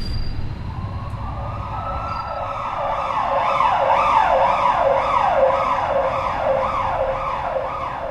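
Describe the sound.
An ambulance siren wails loudly and alone over a low traffic rumble, opening with one long rising sweep and then cycling through many rapid up-and-down pitch swoops that keep a steady, insistent rhythm.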